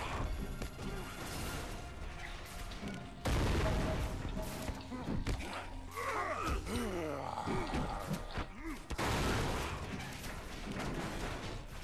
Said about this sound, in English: Who's shooting at me?